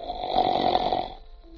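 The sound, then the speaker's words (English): A single drawn-out snore, raspy and fairly loud, swelling for about a second before fading into near quiet. “Clark Gable hadn't got a snore like that, you know.”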